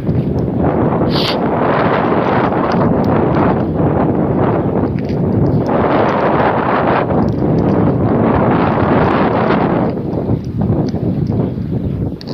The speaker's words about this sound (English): The wind is really whipping right past my face here, so I'm probably hearing it in the recording now.